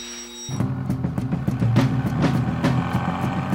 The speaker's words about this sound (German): Er wechselt die Spur. Seine Finger würden jetzt auf das Lenkrad trommeln. Verträumt in den Rhythmus der Zylinder.